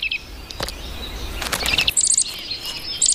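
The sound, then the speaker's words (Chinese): Bluebird nestlings chirp in a few short bursts of thin, high calls, mixed with soft rustling and scattered clicks. “青鸟实在是体贴入微，雏鸟一天天长大，”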